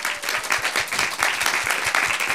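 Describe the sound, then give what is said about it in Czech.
Applause from a concert crowd for the Czech band Hrany a jejich Vrány: steady, dense, even clapping with no pauses, running loudly throughout. “Tohle byly Hrany a jejich Vrány, tak potlesk ještě jednou, prosím.”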